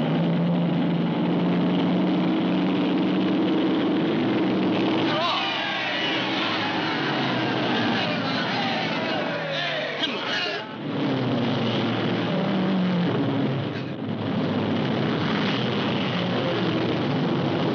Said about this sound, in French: Nous sommes au bord de la piste, mais on entend l'ambiance